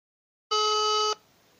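One outgoing call tone while dialling on a phone: a steady electronic beep lasting just over half a second, loud and alone, then a faint background hiss.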